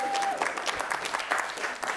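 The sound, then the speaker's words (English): Audience applause for a participant at a church talk, steady dense clapping throughout with a faint whistle-like tone at the start, no voices standing out. “Give a round of applause for Alan.”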